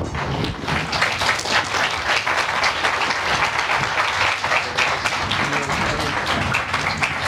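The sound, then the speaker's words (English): Audience applause after a talk at Burning Man, a dense, even wash of many hands clapping that holds at a steady level throughout without pause. “As you can hear from the audience reaction, this story of mitochondrial Eve touched off some deep emotions”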